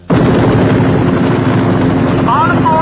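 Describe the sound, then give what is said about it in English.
An aircraft flying over Mars gives a loud, steady engine roar that starts abruptly and holds without a break, with brief warbling tones near the end. “Unidentified aircraft over Mars. You're flying in controlled airspace. We have no flight plan filed on you.”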